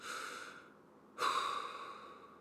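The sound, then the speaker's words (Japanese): A deep, calming breath: two airy, hissing breaths with no talk, the second beginning midway through and louder than the first, then slowly fading. “ちょっと落ち着きましょうね。深呼吸を。”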